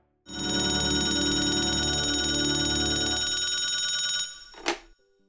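A telephone rings in one long, steady, bright electronic ring lasting about four seconds. It stops abruptly, and a brief sharp sound follows.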